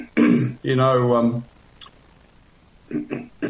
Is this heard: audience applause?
no